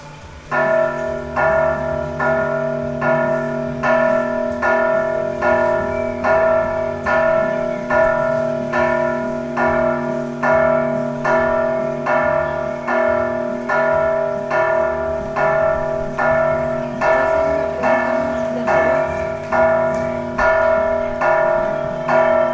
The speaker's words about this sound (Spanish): Las campanitas me están pidiendo que me caigan un ratito.